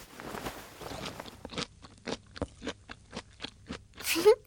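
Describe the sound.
Someone chews fruit, producing many crisp crunching bites and wet mouth clicks in a loose, uneven rhythm that grows a little louder toward the end.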